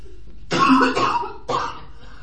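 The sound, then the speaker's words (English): A person coughs twice. The first cough is a longer, rough burst and the second is a shorter one about a second later, both clear and fairly loud with no talk. “If you need to cough some more, just go for it.”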